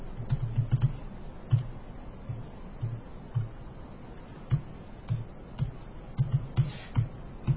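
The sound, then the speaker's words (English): Keystrokes on a computer keyboard as voter information is typed in at a polling precinct, with many quiet, irregular taps in short bursts and pauses. “In this case, I have to type her information.”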